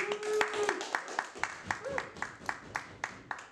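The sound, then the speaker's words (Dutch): Rhythmic clapping from a live show audience, a steady run of sharp, evenly spaced claps at a moderate level, with people talking over it. “Ja, applaus.”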